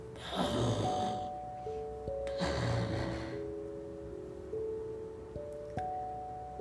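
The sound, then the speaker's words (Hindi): Loud snoring comes as two rasping, breathy bursts, spaced a couple of seconds apart, over soft sustained chiming tones that change pitch step by step. “फिर क्या, एकदम खराटे की जोर जोर से आवाज”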